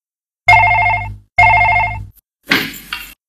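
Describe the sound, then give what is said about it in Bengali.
A telephone rings twice with loud, even electronic rings. A short, noisy burst follows them. “ওই তো phone পাচ্ছে, দাঁড়া দাঁড়া আমি ধরছি।”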